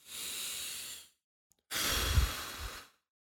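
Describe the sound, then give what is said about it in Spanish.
Deep, slow breathing during a relaxation moment: two long, airy breaths, separated by a short silent pause, the second fuller and heavier than the first, heard alone without talk. “¿cuántas veces en el día te has parado a pensar y a respirar así.”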